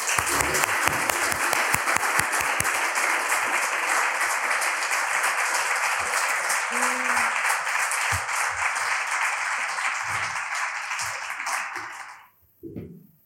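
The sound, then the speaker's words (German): Audience applause for author Marc Elsberg at the Leipzig Book Fair 2023: a dense, loud, sustained wash of clapping that runs for about twelve seconds, fades slightly, then stops abruptly. “Bitte einen Riesenapplaus für Marc Elsberg.”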